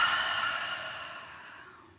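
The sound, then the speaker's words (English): A slow exhale during a guided breathing exercise: one long, soft, airy hiss of breath that fades steadily over about two seconds, heard alone with no voices. “And we'll do that again together. And exhale.”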